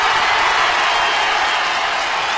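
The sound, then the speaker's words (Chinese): Audience applause at a crosstalk comedy show, a loud, dense and unbroken wash of clapping that holds at a steady level throughout. “要说再见不 有点舍不得 啊？那再来点掌声，我就跟大伙儿返场说个留校的事儿。”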